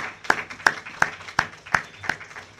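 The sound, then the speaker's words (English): Applause at a gathering honoring retired teachers, heard as six sharp, evenly spaced claps in a steady, moderate rhythm, each crisp and of similar loudness. “Let's give these folks a round of applause.”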